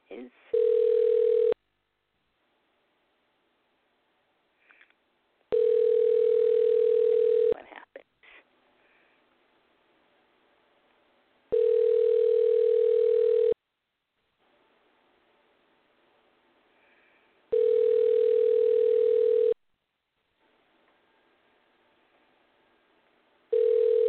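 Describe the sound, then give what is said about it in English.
Telephone line tones after a number is dialed: a steady electronic tone about two seconds long repeats every six seconds or so, with faint rustling and quiet handling noise in the gaps between tones. “I go to dial. I'm dialing.”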